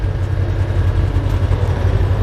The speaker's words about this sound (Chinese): 装甲车舱内，发动机的轰鸣声震耳欲聋